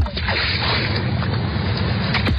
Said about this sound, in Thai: เสียงคลื่นที่หาดทรายแก้ว